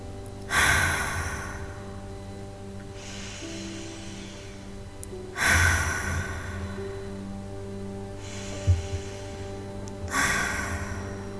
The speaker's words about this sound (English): And we'll take some deep cleansing breaths together.